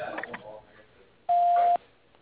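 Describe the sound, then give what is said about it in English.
Voicemail beep signalling the start of a message: one steady, flat, mid-pitched tone lasting about half a second, loud and clean, after a stretch of recorded voice. “If you'd like to leave a message for Judy or Jerry, please do so at the tone.”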